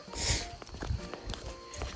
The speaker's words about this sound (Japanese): また山の中の、えー、参道を歩いているので結構今楽しいですね